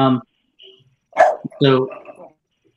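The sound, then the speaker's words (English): A dog barks a few short, sharp times, interspersed with brief bits of people talking. “that was my dog barking”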